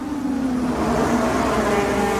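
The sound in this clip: Formula 1 cars roar as they accelerate out of turn 11 at the 2022 Bahrain Grand Prix, a loud, continuous high engine whine that holds steady throughout.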